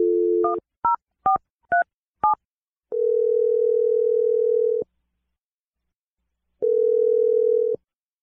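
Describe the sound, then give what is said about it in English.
A telephone dial tone gives way to five quick, distinct keypad dialing beeps. Two long, steady tones follow, separated by a silent pause, all clean and without voices. “I'm going to dial Milanie's number right now.”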